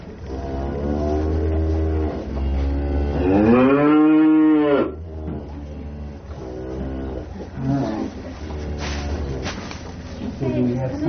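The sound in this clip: A dairy cow on a milking farm lows several times in long, loud, deep moos. One drawn-out call in the middle bends upward and then falls away over a steady low background.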